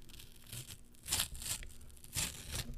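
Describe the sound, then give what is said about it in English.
Tearing open a paper package, faint rips and crinkles in a few separate bursts over a low steady hiss. “I'm going to do some ASMR as I tear this open.”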